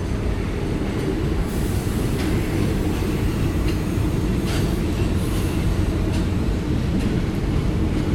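A train pulls in at the opposite platform of a station about 20 to 30 metres away. Its wheels and cars make a loud, steady rumble throughout, with faint high squeals now and then.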